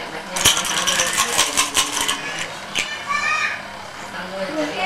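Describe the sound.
Dice rattling as they are shaken for a board game played with children, quick clattering clicks and taps mixed with children's voices and chatter.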